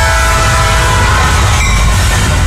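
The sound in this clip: A train passes, sounding its horn: loud, sustained horn tones ring over a continuous rail rumble and clatter. The horn holds steady throughout.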